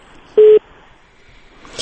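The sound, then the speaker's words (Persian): A single short, steady mid-pitched telephone tone sounds as a call is cut off, followed by faint line noise and a brief rustle at the end. “رادیو آزادی است، تلفن ارتباط ملک قطع سوی قدره”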